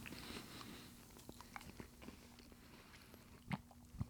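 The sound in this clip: Faint chewing and biting on a hotel-style waffle with syrup: soft, moist mastication with many small crunchy clicks, and a few louder bites near the end.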